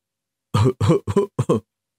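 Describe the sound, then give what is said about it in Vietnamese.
A voice imitates a light cough in a few short, clipped throat-clearing bursts, fairly loud against silence. “Tổng thống Mỹ quốc ho nhẹ một tiếng”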